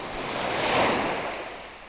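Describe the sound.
Sea waves wash all around, forming a steady broad hiss of surf mixed with wind. The noise swells slightly toward the middle and then eases off without any break.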